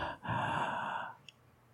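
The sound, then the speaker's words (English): Heavy breathing from a man in a raincoat in a creepy film scene: one long, noisy breath, breathy and fairly faint, with no talk over it. “Listen to these breaths.”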